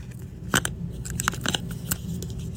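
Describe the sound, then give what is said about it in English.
A roll of tape is fitted onto a tape dispenser, giving a few sharp plastic clicks and snaps, spaced irregularly over a low, steady background hum. “It was putting a roll of tape on the tape dispenser.”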